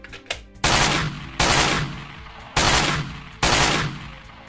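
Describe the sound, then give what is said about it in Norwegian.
Rifle shots fired at a red deer while hunting: four loud, sharp blasts at uneven intervals, each followed by a long decaying roar. “Han setter seg ned på kne, lader børsa, har kronhjorten i sikte, og så skyter han.”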